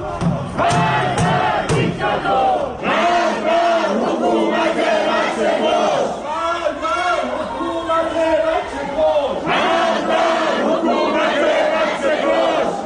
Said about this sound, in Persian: این صدای معترضان در شهرک اکباتان است که میشنوید.